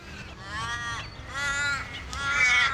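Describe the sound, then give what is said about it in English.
Black crows, called Walliabups, caw at Bibra Lake in three long, harsh, drawn-out cries, heard alone without talk. “I'm down here at Bibra Lake walking along, and all I can see and hear are the beautiful Walliabups, the black crows”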